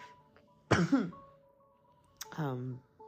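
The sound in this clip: Two short, harsh coughs from a person with a lingering cough, each a rough voiced burst separated by quiet, the second slightly longer.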